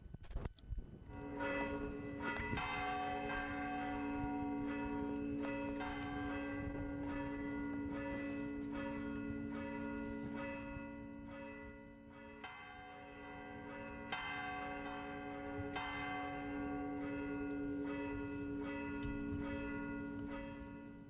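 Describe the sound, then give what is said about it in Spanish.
Church bells ring from the parish church tower of Torre de Juan Abad, a melodic sequence of many bell strikes whose resonant tones overlap and hum continuously throughout. “Así suenan las campanas de la iglesia de la Torre de Juan Abad.”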